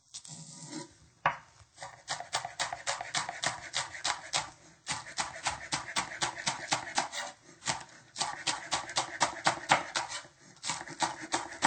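Knife chopping green onions with many quick, evenly spaced strokes. They come in steady bursts broken by brief pauses.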